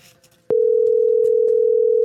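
A telephone dial tone cuts in abruptly after half a second of faint background noise and holds as one steady, loud, unbroken tone to the end.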